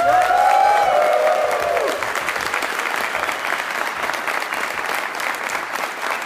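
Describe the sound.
Applause from a live studio audience at the University of Memphis, with steady dense clapping throughout and a brief voice over it at the start.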